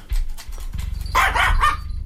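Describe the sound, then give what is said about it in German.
A young dog, past puppyhood, barks a few times in quick succession, sharp yelps rising over a steady low rumble that runs through the whole short stretch. “Ist doch gar nicht mein Hund, der ist mir auch nicht zugelaufen. Der ist auch gar nicht alt. Er ist zwar kein Welpe mehr, aber er ist ein junger Hund.”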